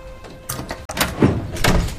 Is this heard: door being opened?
yes